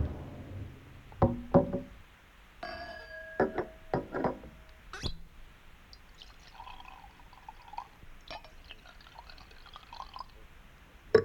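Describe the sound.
Cognac is poured into a glass, with a few faint clinks and knocks of glass and a quiet trickle of liquid, soft and without talk.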